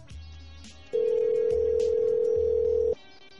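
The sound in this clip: A telephone line tone sounds as a call goes through to an advertising line: one steady mid-pitched tone held for about two seconds, loud and alone, over a low intermittent buzzing hum.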